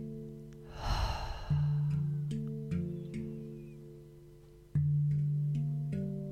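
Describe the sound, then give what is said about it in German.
One slow breath through the nose, heard as a soft airy sigh over gentle sustained musical tones that shift in pitch a few times. “atme erstmal langsam ein durch die Nase und wieder aus.”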